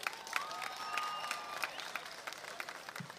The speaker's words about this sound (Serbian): Ajde jednim gromoglasnim aplauzom prvo da pozdravimo ove koji nas uživo prate putem ovog streama interneta. Da vas čujem. Veliki aplauz.